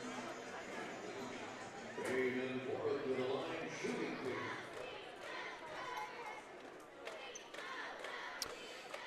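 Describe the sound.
A basketball bounced repeatedly on a gym floor as a player readies a free throw at a game, thudding under steady crowd chatter and voices.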